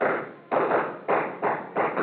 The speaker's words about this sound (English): jammed my trigger finger in over his and pumped till all the shots went into the ceiling.